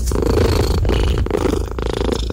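A cat purring steadily and loudly, a deep rhythmic rumble broken by a few brief breathing pauses, with no other sounds.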